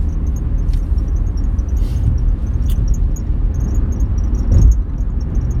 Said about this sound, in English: Man, that wind sure is blowing tough today.